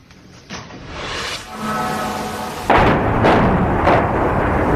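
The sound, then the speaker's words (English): Explosions from Russian missile strikes hit Kyiv at night: deep booming blasts and heavy rumbling that build, then a loud burst near the middle and a few more heavy thuds over sustained roaring noise. “The moment of impact in yet another round of deadly Russian strikes. The night sky over Kyiv illuminated as fires tear through the city into the early hours of the morning.”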